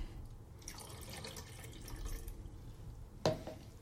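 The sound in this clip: Water runs steadily through a tank during the third wash of developed film, a soft, even hiss with a single sharp knock near the end.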